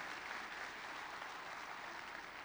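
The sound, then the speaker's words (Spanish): A church audience claps in steady, dense applause, a continuous even wash of hand claps with no pauses, fairly faint throughout. “Alaba al Señor con un aplauso en la casa del Señor.”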